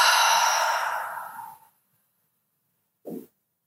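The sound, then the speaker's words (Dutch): A long, deep exhale during a guided breathing exercise fades out over about a second and a half, followed by silence and one brief, faint breath sound. “Adem diep in. Diep uit.”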